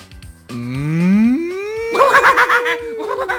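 Cow mooing: a drawn-out, low call that climbs steadily in pitch, followed by a second, louder and higher wavering moo, loud and without speech.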